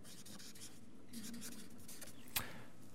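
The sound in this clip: Faint scratching of something being written down, a loose series of soft strokes that ends with one sharp tap near the close.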